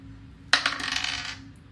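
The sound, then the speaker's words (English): A twenty-sided die rolled on a table during a tabletop role-playing game: a sudden clatter of quick rattling bounces that lasts about a second, then tapers off and settles into quiet. “So roll a d20.”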